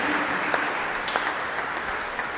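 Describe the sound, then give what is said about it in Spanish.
Applause at a religious gathering: dense, steady clapping from a crowd at moderate loudness, with a few sharper claps standing out. “Un aplauso a Felisa.”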